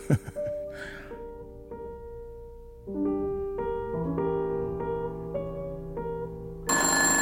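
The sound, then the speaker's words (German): Telephone ringing with an incoming call, heard as a faint series of clear pitched tones in a repeating pattern, with a sharper burst of noise at the very end. “Jetzt nicht. Siehst du denn nicht, dass ich beschäftigt bin? Ich werde diesen Anruf nicht entgegennehmen.”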